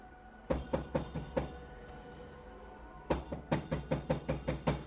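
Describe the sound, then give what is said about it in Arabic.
Knocking on an old wooden apartment door: a short run of about five raps, a pause, then a longer series of many sharp knocks in a steady rhythm, with no answer between them. “خبطت تاني وتالت ورابع ومفيش حد جوه”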